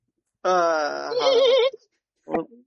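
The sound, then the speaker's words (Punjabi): A human voice imitates a mare neighing: one long, wavering, whinny-like cry, then a short second burst after a brief pause. “ਘੋੜੀ ਹਿਣਕਦੀ ਹੈ, ਘੋੜੀ ਹਿਣਕਦੀ, ਹਾਂ ਖਾਲੀ ਘੋੜੀ ਹਿਣਕਦੀ।”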